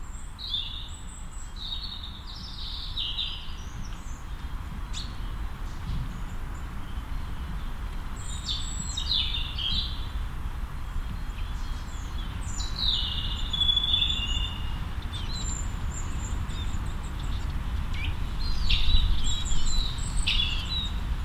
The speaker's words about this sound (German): man hört aber schon ein paar Vögel und man hört im Hintergrund aber auch die Autobahn, die hier am Funkerberg vorbeigeht.